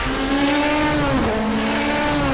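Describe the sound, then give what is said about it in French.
Engine of a 306-horsepower Mini GP hatchback driven hard: a loud, steady, buzzing high-rev drone that dips briefly in pitch midway, then holds, with no talk. “l'essai de la Mini GP, la plus furieuse des Mini. 306 chevaux sous le capot, autant dire que ça ne rigole pas.”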